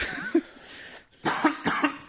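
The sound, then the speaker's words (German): A person coughing a few times, fairly faint and rough, in short bursts with brief pauses between them. “Entschuldigung, da muss ich wirklich husten.”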